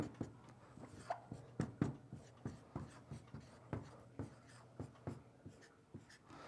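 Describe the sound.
Handwritten strokes scratch across a surface in a long, irregular run of many short, crisp bursts with brief pauses between them. The sound is fairly faint, and no one talks over it.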